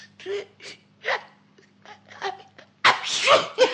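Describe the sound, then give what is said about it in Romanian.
A cartoon mouse character's sneeze, voiced by a performer: several short, breathy voiced catches build up, then a loud, noisy sneeze bursts out near the end. “M-a lovit strănutul.”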